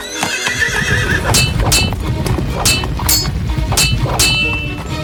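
A horse neighs with a wavering whinny, then its galloping hooves continue alongside repeated bright metallic clangs that ring out at fairly regular intervals. The sound stays loud throughout.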